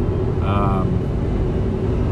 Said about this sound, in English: Oh man, it's hard to drive and think of actors and actresses' names at once. When you have two hands on the wheel and a lot on your mind and a phone recording that you uploaded to the internet.